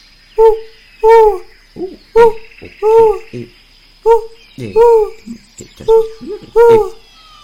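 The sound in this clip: A human voice imitates an owl with many rounded, hollow hoots in a steady repeated rhythm, mixed with a few shorter vocal bursts between them.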